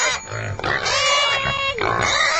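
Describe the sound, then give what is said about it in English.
A pig grunts a few times in quick succession, loud, rough and nasal, the grunts running closely together with only brief gaps. “All right, you're enraging the pig. Whatever you did really upset them.”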